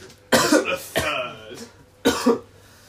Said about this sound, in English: I guarantee this is the podcast with the most coughing.